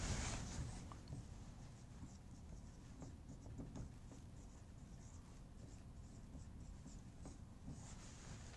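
Writing on a board produces a faint, continuous scratching and scraping with light taps scattered throughout, and no voices.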